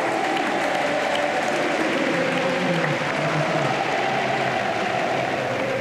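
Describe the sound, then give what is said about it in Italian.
A tennis crowd applauds and cheers for Jannik Sinner as he holds the trophy, a dense, continuous wash of clapping that stays even and loud throughout. “Sentite il pubblico, sentite il pubblico che invoca il suo nome.”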